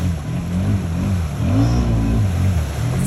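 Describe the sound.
An engine revs as an off-road vehicle with huge wheels and a snorkel drives through water about a meter deep. The motor note loudly rises and falls as it pushes on.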